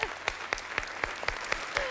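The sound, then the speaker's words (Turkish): An audience at a competition show claps in unison, about eight sharp, evenly spaced beats over two seconds, with a softer wash of applause filling the gaps between them. “Alkış Doruk için.”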